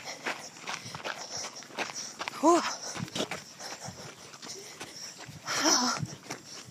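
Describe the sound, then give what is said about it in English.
Footsteps of people jogging keep a steady, regular beat of soft thuds, with brief voice sounds among the steps and a louder patch of noise near the end. “But we gotta keep jogging.”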